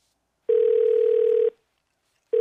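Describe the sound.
Telephone ringback tone while calling again: a steady, low, single-pitch tone of about a second, a silent gap, then the next tone beginning.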